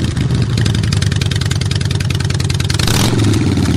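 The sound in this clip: A Harley-Davidson motorcycle engine runs with a loud, throbbing low rumble and fast, even pulses. Near the end it surges into a rougher, louder roar.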